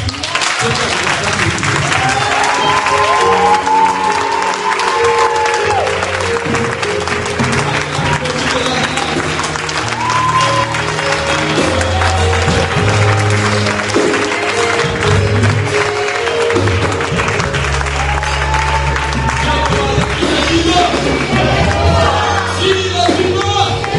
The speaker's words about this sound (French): Je veux qu'on acclame celui qui tient nos vies.